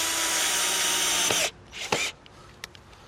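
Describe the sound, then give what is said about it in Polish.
A power drill drives a self-drilling screw, boring its own hole as it goes. A loud, steady whir runs for about a second and a half, then stops, followed by a few faint clicks and rattles. “Damy go wyżej. On jest samowiercący, więc już nam nawierci fajnie otwór.”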